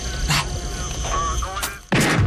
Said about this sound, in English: Louise. What? Shoot the radio.